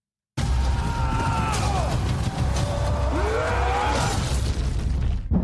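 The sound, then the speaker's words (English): A movie trailer playing, with loud rumbling booms and swooping tonal sweeps, one falling and another rising, over a dense, continuous cinematic soundtrack after a brief silence. “Okay, it's the second trailer right now. Here it is.”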